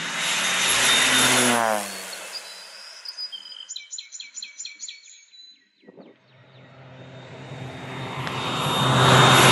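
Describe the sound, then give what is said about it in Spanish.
A small crop-spraying airplane makes repeated passes over farmland. Its loud engine roar fades away, birds chirp clearly in the quiet gap, and then the engine swells again as the plane returns. “Y ahí viene la avioneta que hace ya 10 minutos está pasando. Esta es la tercera pasada que va a hacer.”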